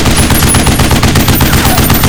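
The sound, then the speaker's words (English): A machine gun, resting on the remains of a bridge, fires one continuous rapid burst for about two seconds, loud and harsh with the shots blurring into a dense rattle. “With the machine gun resting securely on one of the dead bridge haunches, Erickson opened fire.”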